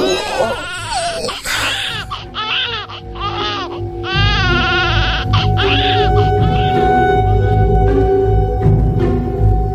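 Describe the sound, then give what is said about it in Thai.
Newborn baby crying loudly just after birth in a delivery room, with loud, continuous high-pitched wails broken into harmonic bursts that ride over a steady background hum. “ทุกอย่างในห้องเงียบสนิทมีเพียงเสียงเด็กน้อยแผดร้องจ้าออกมา”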